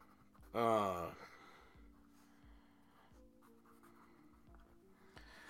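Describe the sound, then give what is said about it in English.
A pen scratches softly and faintly on paper over a low, steady hum, with a brief breathy vocal sound near the start. “Hang on, let me write this down.”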